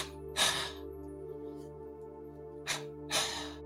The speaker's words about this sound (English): And you can start with a double exhalation, like